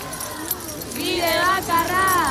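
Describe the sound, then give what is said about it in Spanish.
A protest crowd jangling house keys in Basque city streets during a housing demonstration, a bright metallic shimmer with voices rising over it. “Bueno, pues ese era el sonido de alguna de estas manifestaciones. Miles de personas recorrían llave en mano las calles de San Sebastián, Vitoria, Bilbao para reivindicar que no se utilice la vivienda como un negocio.”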